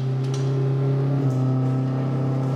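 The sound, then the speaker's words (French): Car engine and road drone from a car accelerating along a slip road onto an expressway: a steady, moderately loud low hum with no talk. “On est sur une voie d'accélération, donc on va commencer l'accélération afin de rentrer sur la voie rapide.”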